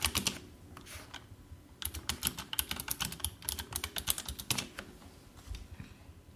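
Typing a chat message on a computer keyboard: many quick key clicks in uneven bursts with a short pause early on, fairly faint and with no talk.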